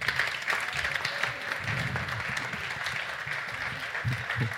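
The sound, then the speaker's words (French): Students in an audience applaud pitch contestants at an entrepreneurship pitch event, producing a soft, steady round of clapping that carries on evenly throughout. “On peut les applaudir quand même.”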